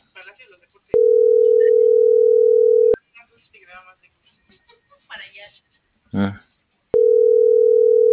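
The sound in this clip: Telephone ringback tone from an unanswered call: a steady low hum about two seconds long, then a gap of several seconds with faint talk, then the same tone starting again.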